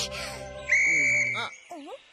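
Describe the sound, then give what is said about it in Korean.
A whistle is blown in one shrill, steady blast of about half a second, with short voiced sounds just before and after it. “갑자기 호루라기는 왜 부른 거야?”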